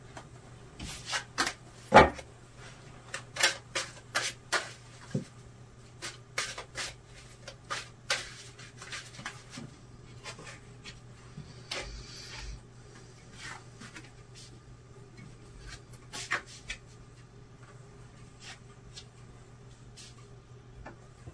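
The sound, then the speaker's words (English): Tarot cards being drawn and handled, heard as many faint, sharp clicks and taps at irregular intervals over a low, steady hum. “Okay, let's take some cards on this area.”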